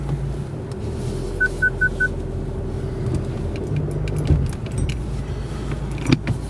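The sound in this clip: A car pulls out of a driveway with a steady low engine rumble. Four short electronic beeps sound early on, along with light jangling and a few clicks.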